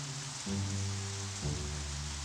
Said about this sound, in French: La pluie, toujours la pluie.